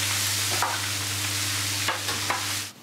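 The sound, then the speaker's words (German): Thin slices of bratwurst fry briefly on a griddle plate for a bratwurst döner, giving a steady, loud hissing sizzle with a few scraping clicks before the sizzle suddenly drops away at the end. “Und für den extra Crunch wird sie dann noch mal ganz kurz auf der Grillplatte angebraten.”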